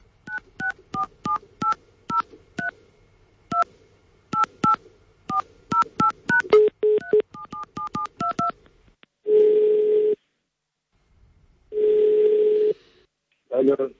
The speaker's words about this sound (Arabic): طيب خلينا نحاول نتصل به أحمد يعني كريم خير من العمارة